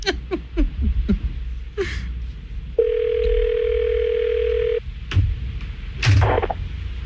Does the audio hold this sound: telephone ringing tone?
yes